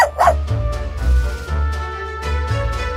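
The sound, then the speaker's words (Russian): A small dog barks in a few short, high yips at the start, then quieter sounds continue for a few seconds. “Разве ты не прелестная собачка? Откуда ты взялась?”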